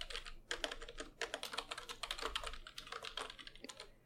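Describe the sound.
Quiet, rapid typing on a computer keyboard: a dense, uneven run of light clicking keystrokes that continues throughout, with no voices.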